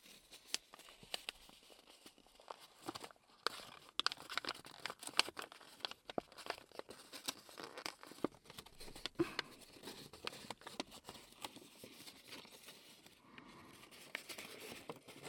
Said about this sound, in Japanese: 開いた時にきれいに開けるように折り目をつけてから、